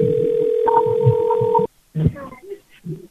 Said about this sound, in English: You hang up that phone. Hang it up.